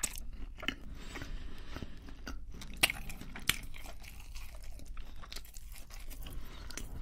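A Burger King burger is chewed close up: soft wet munching with scattered crisp crunches and a couple of sharper clicks, quiet and continuous.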